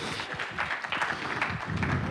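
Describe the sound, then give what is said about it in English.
An audience applauds a volunteer called up to the stage. The brisk clapping of many hands is mixed with some low rumbling and shuffling throughout. “so let's give him a round of applause.”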